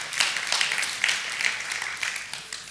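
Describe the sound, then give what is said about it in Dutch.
An audience at a bilingual English-Dutch church gathering applauds itself with dense, continuous clapping that stays fairly even and eases slightly toward the end. “Why don't you give yourselves a hand for that? Geef jezelf een applaus daarvoor.”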